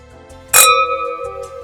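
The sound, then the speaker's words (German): Two stemmed wine glasses clink together once in a toast, lifted by the stem so they ring. The bright clink leaves a clear, sustained ringing tone that fades slowly over a faint low hum. “Komm, wir stoßen noch mal an. Ja, aber den Kelch unten am Stiel heben, Schatz. Sonst vibriert er nicht richtig.”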